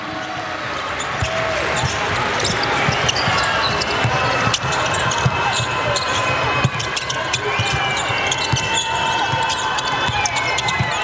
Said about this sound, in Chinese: 顺步接背后运球，再做摆脱，好球！